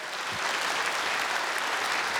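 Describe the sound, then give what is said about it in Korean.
An audience applauds at a traditional Korean music concert in Daejeon. Dense, sustained clapping from many hands continues evenly throughout, with no voices heard. “다시 한번 뜨거운 박수로 화답해 주실까요?”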